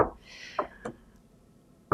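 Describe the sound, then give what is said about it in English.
A few sharp knocks on a wooden surface, separated by uneven pauses, with a brief tonal hum between the first strikes. “Oh my God, but what is that? Is this wood? Okay, I'm just going to knock on the wood for like a couple more.”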